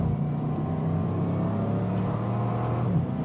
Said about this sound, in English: There he goes. He stopped. Now it's time to go. Pulls onto the Autobahn.